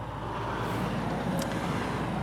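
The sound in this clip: A vehicle serving the fish farming industry drives past in northern Norway, a steady, even road rumble that holds at the same level throughout, with no voices.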